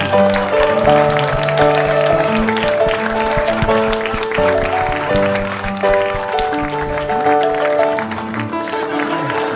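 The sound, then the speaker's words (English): A live theater audience in Los Angeles applauds to welcome a Christian rapper guest, with loud, continuous clapping that stays full and even, easing a little toward the end. “I would like you to put your hands together for J.C. Martin Chavez.”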